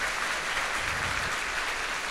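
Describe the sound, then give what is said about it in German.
Applause from an audience after someone announces passing a final state teaching exam, a dense, steady wash of clapping that stays even and fairly loud for the whole two seconds, with no voices over it. “Herzlichen Applaus! Applaus!”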